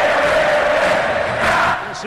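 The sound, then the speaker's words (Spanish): Cerro football fans chant together as they leave the stadium after a 2-1 win, a dense, loud crowd sound with a steady sung tone that holds for the whole clip and eases off near the end. “Así va a abandonar la olla al público de Cerro con este cántico.”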